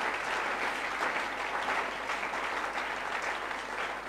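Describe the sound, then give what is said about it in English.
Congregation at a church conference clapping their hands, a dense, steady wash of applause that holds at an even loudness throughout. “Clap your hands for this pastor. This is a pastor.”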